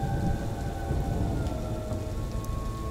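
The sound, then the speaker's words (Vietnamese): Heavy rain pouring down in a steady, dense hiss and roar, even and loud from start to finish, with no breaks or separate drops standing out. “Trời bắt đầu đổ mưa, cơn mưa cực kỳ lớn.”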